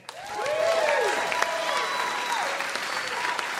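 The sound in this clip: An audience at a comedy show applauds to welcome a guest onto the stage: sustained, full clapping that swells in quickly and holds steady, with voices rising over it.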